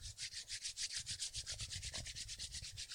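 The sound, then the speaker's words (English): Hands rubbed together really hard while lying flat on the back, a quick, steady run of many dry, scratchy swishing strokes in an even rhythm, with no talk. “rub your hands together really, really hard.”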